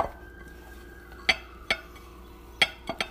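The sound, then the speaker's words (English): Ingredients with cinnamon and chocolate being stirred together, marked by about five sharp, bright clinks of a utensil against the container, spaced unevenly over a faint steady background. “So now I'm just going to mix all that in.”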